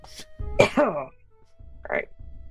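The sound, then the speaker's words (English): A voice imitates choking after swallowing sewage: a few rough, throaty coughs and a strained, voiced gag, with short pauses between them. “You breathe in slightly too hard. A bit of the sewage goes in your mouth. You choke a little bit.”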